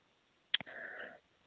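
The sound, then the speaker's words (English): A cough after a sip of water went down the wrong way: two quick sharp bursts followed by a brief strained, rasping sound, fairly faint and alone. “I just took a sip of water that went down the wrong way.”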